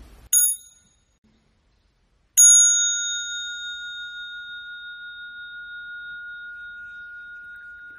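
A meditation bell is struck twice during a Buddhist relaxation practice. A short bright ding comes first, then a second strike rings out as a long, high, clear tone that hums and slowly fades while still sounding.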